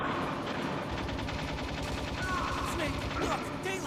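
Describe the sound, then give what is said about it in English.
Rapid gunfire in the video game Metal Gear Solid Integral, a fast, even stream of repeated shots under people talking. “You're still getting shot at.”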